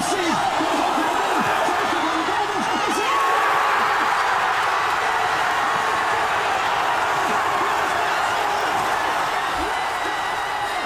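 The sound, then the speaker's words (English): Thousands of football fans roar as they watch a World Cup match at the Ovo Hydro in Glasgow, a dense, loud, steady wall of crowd noise that runs unbroken throughout with scattered whoops and shouts. “No wonder then that this was the noise of the thousands of people who had packed out the Ovo Hydro in Glasgow to watch the match.”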